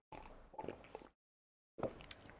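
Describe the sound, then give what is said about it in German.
A person taking a drink, with sipping and swallowing mouth sounds in two bursts separated by a short silence. “Ich muss erst mal was trinken, hey.”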